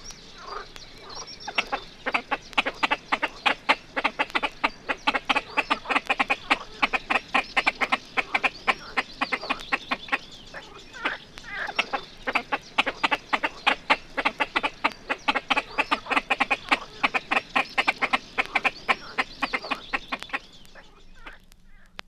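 A pair of great crested grebes greets each other at a breeding site with a long series of many loud, harsh, rapid calls in a dense, rhythmic chatter, broken by a brief lull midway.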